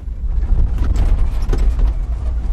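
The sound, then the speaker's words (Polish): An off-road vehicle jolts along a rutted, potholed dirt road in South Sudan: a heavy low engine rumble mixed with irregular knocks, bumps and rattles as the vehicle rocks, with no talking. “Droga jest cały czas taka jak w całym Sudanie Południowym. Pełna kolein i głębokich dołów. Nasza terenówka buja się na wszystkie strony.”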